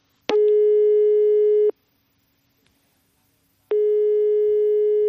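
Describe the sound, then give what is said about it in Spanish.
Telephone ringback tone of an outgoing call placed through a voice assistant: two long, steady buzzing tones of the same pitch separated by a silent gap, loud and with no voices. “¡Llamar al de Cantabria! Solicitud aceptada. Llamada en curso.”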